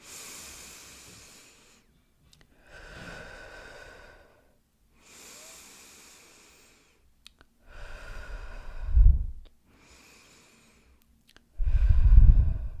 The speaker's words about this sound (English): let's do three deep breaths in and out together